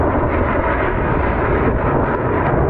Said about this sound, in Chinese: 没想到三台大推力发动机拍加力时候的那个声音，比刚才歼-20低空通场的时候还要震撼人心。